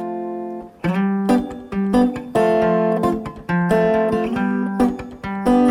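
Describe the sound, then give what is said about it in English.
Sustained chords move from G major to the flatted seventh chord, F, and back, each one struck clearly and ringing out in a steady, repeated pattern, loud with no voices. “So it might sound like this: G major to the flatted 7 chord, F.”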